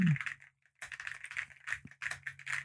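Typing on a computer keyboard: short clusters of quick, clicky keystrokes come in bursts, with a brief pause early on before the tapping resumes, fairly faint over a low hum.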